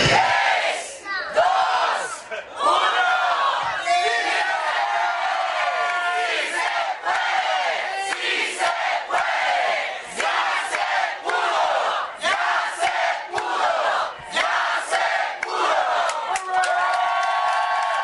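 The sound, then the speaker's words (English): Crowd cheering, whooping and yelling as a low-power FM community radio station goes on air after a weekend barn-raising build organized by the Prometheus Radio Project. The roar stays loud and continuous throughout, with scattered shouts. “That's the sound of yet another low-power FM community radio station taking to the airwaves after a hectic weekend of construction, otherwise known as a barn raising, organized by the Philadelphia-based Prometheus Radio Project.”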